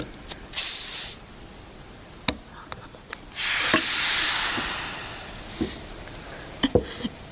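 A shaken bottle of light blonde, bottle-refermented beer opens with a short, sharp hiss, followed by a longer foaming spray that fades, and a few scattered clinks and clicks.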